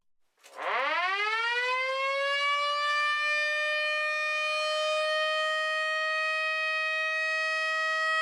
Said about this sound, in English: the Billups had a Federal Signal Model A siren, which sounds like this